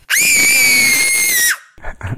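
A recording of a young child, about three or four years old, letting out one long, loud, high-pitched scream, followed by a few brief, fainter sounds.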